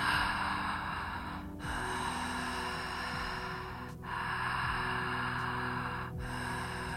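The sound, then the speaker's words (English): Connected, fluid flowing breathing during a guided breathwork practice: a loud, continuous airy rush with no pauses between breaths, dipping briefly about every two seconds as each breath turns over. “come into your connected breath sound.”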